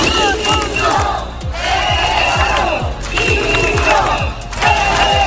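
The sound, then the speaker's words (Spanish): A crowd of around 200 to 300 protesters gathered in a city square chants and shouts loudly together, with a steady rhythmic thumping beat running beneath the massed voices throughout. “Cerca de 200, 300 personas se concentraron en esta plaza”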